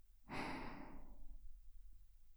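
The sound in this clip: A heavy, breathy exhale performed by a voice as a menacing genie breathing: one loud airy rush, like a deep sigh, swells quickly and fades over about a second, leaving a faint low rumble.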